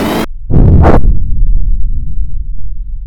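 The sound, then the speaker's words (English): A spaceship jumping into hyperspace, as a sound effect: a loud burst cuts off sharply, then a surging whoosh swells and settles into a long, deep rumble that slowly fades. “We can't go any faster. I'm gonna have to kick us into hyperspace.”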